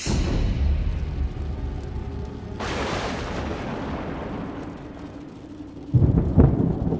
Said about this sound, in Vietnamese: Một tiếng sét đánh ngang trời